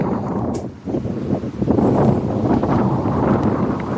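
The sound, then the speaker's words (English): Wind gusts across an open golf course, buffeting the microphone with a low, blustery rumble that dips briefly and then surges back stronger, swelling and easing in uneven waves. “It feels like it's getting windier. You can see that flag really whipping across. You can hear it as well, can't you?”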